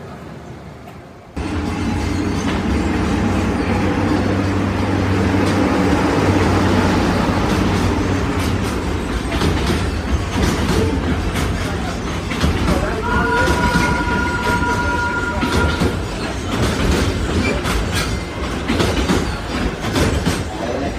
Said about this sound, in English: That sound you hear is the train that takes you out to Rafiki's Planet Watch.